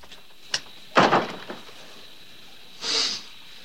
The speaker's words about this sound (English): He pauses for a moment, then makes his way across some stepping stones to the front door and shuts it.